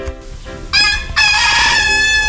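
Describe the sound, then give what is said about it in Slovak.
A rooster crows at a gate, one long, loud, strained crow with a bright, harmonic-rich call that swells sharply partway through and holds steady to the end. “Pri bráne ma ako prvý privítal kohút.”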